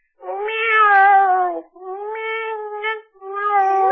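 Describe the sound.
A voice imitates a cat meowing in three drawn-out, wavering calls, each separated by a brief gap. The final call is cut off at the end. No other talk is heard.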